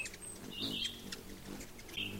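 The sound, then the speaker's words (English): Ruby-throated hummingbird calls in northern Minnesota: a few faint, thin, high-pitched chirps and squeaks, separated by short pauses, with no voices. “the only kind of hummingbird we have in northern Minnesota, the only breeding hummingbird, is the ruby-throated hummingbird. So that's what you're seeing.”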